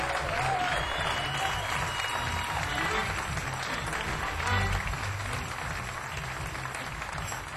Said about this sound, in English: Before I do, I want everybody to get your hands together. Give a baby nice round of applause.